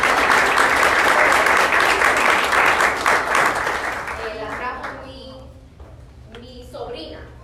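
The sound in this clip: A church audience applauds a newcomer with dense, loud clapping for several seconds. The clapping fades as voices and speech take over.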